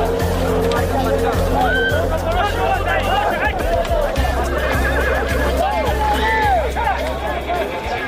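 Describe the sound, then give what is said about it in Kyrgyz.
Hardy, sturdy Lakai horses readied for ulak, the traditional horseback goat-grabbing game, neigh repeatedly with arcing whinnies, amid crowd babble and people talking. “Мына ушул улакларга эми жүдө чыдамлы, бакыбат чайыр атлар сапланган.”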